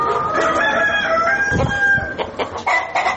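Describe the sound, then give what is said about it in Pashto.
Chickens clucking and a rooster crowing at a poultry farm of about four hundred birds in Ghazni, Afghanistan. A steady stream of moderately loud clucks runs alongside a drawn-out crow, with no talk. “د غزنی ښار په غیبی کلندر سیمه کې د لږ ډېر څلور سوه چرګو چرګانو فارم”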